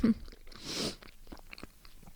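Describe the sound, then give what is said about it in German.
Chewing on a piece of banana, with soft, moist mouth sounds in a few short bursts of varying loudness and no talking. “Vorher esse ich nochmal ein Stück Banane. Ich rede jetzt mal mit vollem Mund.”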